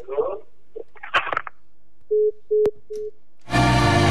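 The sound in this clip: Busy-signal tones sound after a phone caller is disconnected: three short, steady, mid-pitched beeps in a row, preceded by brief voice-like sounds and followed by a loud burst of harsh static.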